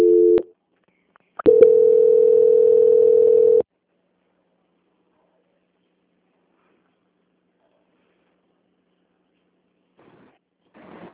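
Telephone line tones during a call transfer: a brief electronic beep, then after a short gap a steady, level tone held for about two seconds, followed by silence.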